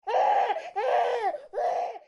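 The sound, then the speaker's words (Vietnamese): A little boy, a baby who has cried for hours and won't settle, wails in three long, loud, strained bursts separated by short breaths. “Cô xem, thằng nhỏ này khóc cả nửa ngày chơi rồi, vẫn không chịu nín.”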